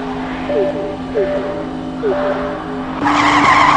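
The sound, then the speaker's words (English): Race car engine revving up at the start of a racing video game demo with a supercharger: a steady droning engine note with a few short chirping squeals, then a louder, brighter surge near the end. “Prepare to race. All right, I'm holding down my accelerator now.”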